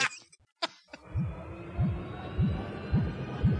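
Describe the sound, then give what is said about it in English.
A time machine sound effect powers up: a few short clicks, then a steady hum with five deep throbbing pulses at regular intervals. “Tony's priming up the machine. Is this going to like rip a hole in this fabric of space-time?”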